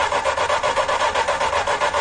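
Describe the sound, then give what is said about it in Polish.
Scraping rub of a sliding side window being pushed open along its track on a Żuk van. A steady, loud rasping drag with a fast, regular rippling texture throughout. “szyby się nie otwierają w ten sposób, że przy pomocy korbki opuszczamy, tylko przesuwamy.”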